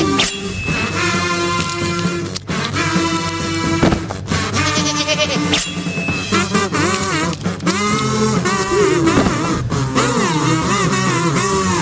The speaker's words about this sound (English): These goats don't even know what hit him.